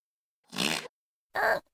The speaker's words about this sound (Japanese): ほら、出た。また。おなら止まんない。